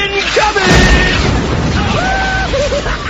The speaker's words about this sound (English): What a mess! I spend all day tidying up my cell, and some inconsiderate mischief maker fires a tank round into it.